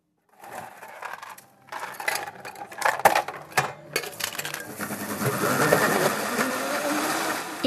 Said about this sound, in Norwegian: god is, litt ost og blåbær, og brått var en blueberry cheesecake, eller ostekake med blåbær, i mikseren på spisestedet TGI Fridays i Trondheim.